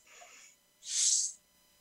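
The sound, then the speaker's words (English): A deep breath drawn in through the nose during a guided relaxation exercise: a soft, breathy sound, then one louder hissing intake of about half a second, heard alone. “taking a deep breath in through your nose”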